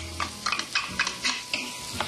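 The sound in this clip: Onions, garlic and green pepper sizzle in olive oil in a pan over medium heat while a utensil stirs them with a steady rhythm of scraping strokes above a constant frying hiss.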